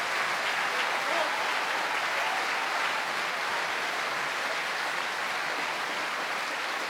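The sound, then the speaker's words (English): Enthusiastic applause from a huge audience at the Royal Opera House in London on a sweltering evening as the principals take their bows after Verdi's Otello. Dense, loud, steady clapping fills the whole stretch without a break. “Pappano now leads all the principals to the front of the stage, where they acknowledge the enthusiastic reception of this huge audience on a sweltering London evening.”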